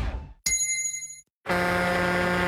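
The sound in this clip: A gong sounds to signal a drink break: a bright metallic strike rings out and decays, then a second, fuller tone swells in and sustains steadily to the end.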